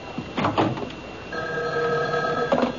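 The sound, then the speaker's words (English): A telephone rings in a single sustained, bright bell trill through the second half, following a few soft rustling sounds at the start. “Excuse me, that's my phone.”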